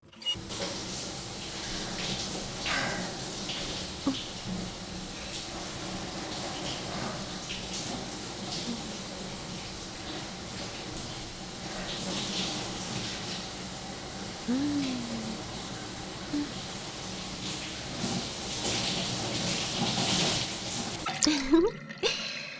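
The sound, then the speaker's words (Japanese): Water runs softly and steadily while someone is rinsed off after washing, a faint continuous wash with scattered small drips and splashes and no voices. “さーて、それでは洗い流していきましょうか。”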